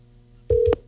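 A telephone line tone as a caller is connected: one short, steady beep lasting about a quarter second, rising sharply out of a faint low hum.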